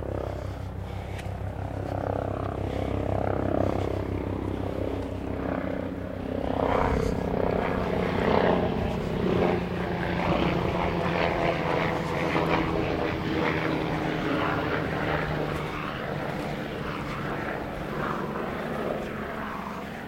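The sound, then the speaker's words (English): Helicopter flying overhead: a loud, continuous, rumbling engine-and-rotor drone that holds steady for the whole twenty seconds with no other sounds standing out. “helicopter coming over”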